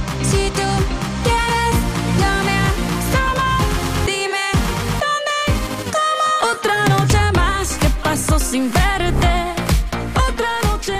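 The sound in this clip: A Latin pop song plays loudly with a punchy rhythmic beat and bright melodic layers; the low end drops out briefly midway for a sparse break before the full groove returns.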